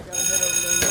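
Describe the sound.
A school bell rings to call students to class, one continuous bright metallic ringing that lasts about a second.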